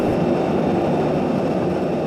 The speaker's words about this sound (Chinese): 现在去接飞机，飞机现在刚刚落地。